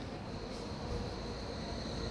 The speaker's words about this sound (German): Ach, da kommt die Bahn.